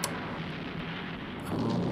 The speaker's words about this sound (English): Because now... it started a landslide. Yeah. The rock fall hits one of those tanks.